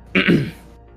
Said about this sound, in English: He clears his throat as he leans forwards, and he says,